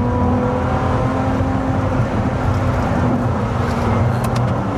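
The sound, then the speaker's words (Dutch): A Ferrari 296 Speciale sports car engine drones loud and steady, a dense growl with a humming, tonal undertone that holds an even level throughout, no voices. “En hij klinkt echt waanzinnig. Ja, de Ferrari 296 Speciale, dit doen ze gewoon wel echt, echt, echt heel erg goed, hè, bij Ferrari.”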